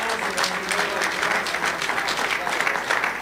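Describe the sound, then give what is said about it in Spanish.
Applause from a church audience during a sermon, a dense, steady wash of many hands clapping together, loud and sustained throughout without a break, with a few faint voices mixed beneath. “Denle ese aplauso al Señor.”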